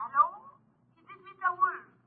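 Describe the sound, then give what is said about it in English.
An old telephone bell rings in two short bursts, the second broken into a few quick pulses, fairly faint and with nothing else over it. “Ladies and gentlemen, the ringing of that phone bell brings you mystery, adventure.”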